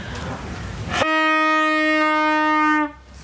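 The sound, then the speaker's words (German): A medieval-style night watchwoman's horn gives one long, loud blast of about two seconds, holding a steady, buzzy pitch rich in overtones before cutting off abruptly, with quieter background noise before it. “die ist die mittelalterliche Nachtwächterin, die ist hier unterwegs und hat hier so ein Horn. Was ist denn das für ein Horn eigentlich? Und das macht einen Ton.”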